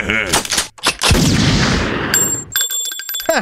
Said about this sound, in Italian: Mi hai sparato, infame.